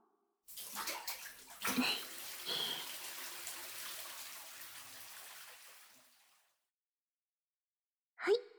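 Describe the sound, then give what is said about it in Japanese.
Water poured from a bath bucket to rinse a child, a soft splashing gush lasting several seconds that gradually tapers off. Silence follows, then one brief splash at the end. “このお風呂の桶を使って。気持ちよか？もう一回流すよ。”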